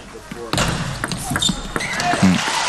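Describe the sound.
A table tennis ball taps lightly on the table and paddle as it is served in a match. The few quick clicks sit under a commentator's steady talk.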